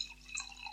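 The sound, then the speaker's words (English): Red wine pours into a glass in a short, faint liquid trickle with light splashy detail and no talk. “Pouring red wine”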